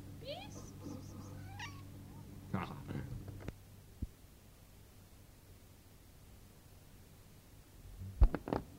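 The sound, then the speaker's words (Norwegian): A cat meows in a home recording made on cassette tape: a few high, drawn-out meows at the start, followed by brief human voices and a couple of soft clicks over a low hum. “Det var katten.”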